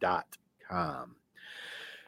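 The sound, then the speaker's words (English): A deep breath follows two brief bursts of voice: a long, steady rush of inhaled air lasting most of a second, noticeably louder than ordinary breathing. “now I took a deep, deep breath there. I needed that, didn't I?”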